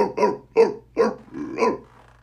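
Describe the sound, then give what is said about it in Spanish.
A person imitates a dog barking with a few short, gruff, throaty woofs in an uneven rhythm, fairly faint and with no other sounds. “¿Puedo ladrar como perro?”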